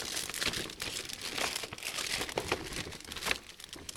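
Paper crinkling and rustling as a birthday card is handled and signed, irregular crackly bursts coming and going with no talk.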